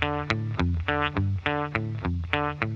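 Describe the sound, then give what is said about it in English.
An electric guitar with effects and distortion plays a spaced-out descending figure in stacked fourths in D on open strings. The bright picked notes repeat in a looping, slightly off-kilter rhythm, loud and alone with no voices. “The guitar is playing this cool, spaced-out, descending figure. It's sort of stacked fourths and D. Sounds like this on the guitar works really well because he uses open strings.”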